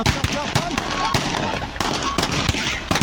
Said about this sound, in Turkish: Taraflar birbirlerinin üzerine yağmur gibi kurşun yağdırdı.